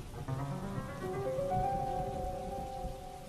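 Heavy rain falling in a forest, a steady dense patter of drops with soft sustained tones underneath and no speech.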